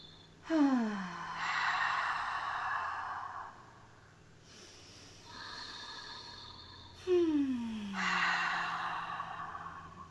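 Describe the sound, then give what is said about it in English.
Slow, deep breaths during a guided relaxation, drawn in through the nose and let out through the mouth: a few long, airy inhale-exhale cycles of soft, breathy hiss, with no talking. “take a couple deep breaths. So an inhale through the nose and an exhale out the mouth. A couple more like that.”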